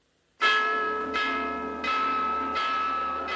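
A church bell is struck five times at a slow, even pace. Each loud, bright strike overlaps the shimmering ring of the last above a steady low hum, with no voices.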